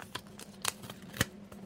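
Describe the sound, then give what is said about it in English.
Paper crackles and tears as a small award card is pulled from its envelope. A few short, crisp rustles and snaps stand out over quiet background noise. “I got to open my little card here.”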